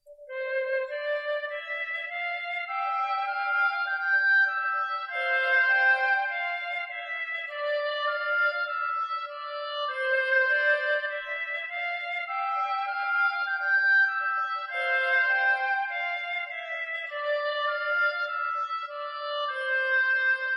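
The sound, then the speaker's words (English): Flute and oboe play a melody together with no other instruments, their clear, sustained notes stepping through a short phrase that returns several times at a calm, even pace. “I'll just play the flute and oboe, by themselves so you can hear what it sounds like.”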